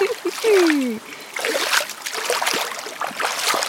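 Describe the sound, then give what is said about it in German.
Water splashing in a small, cold, clear brook beside a campsite as people cool off in it, a steady watery rush broken by irregular splattering bursts throughout. “Direkt neben dem Campingplatz äh, fließt hier so ein kleiner Bach entlang. Hier haben wir uns jetzt äh, erfrischt kleines Bad genommen.”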